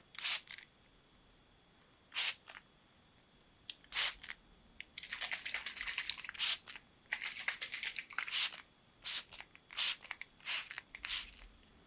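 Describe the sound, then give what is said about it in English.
Bits being peeled off: many crisp tearing and crinkling bursts separated by short silences, with a denser stretch of continuous rustling near the middle. “Just peeling some of these bits off from that”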